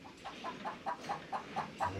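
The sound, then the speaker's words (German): Hens cluck on a farm in a faint, steady series of many short, evenly spaced clucks, each a brief nasal burst, with little else around them. “die Hähner sind auch ganz deppert.”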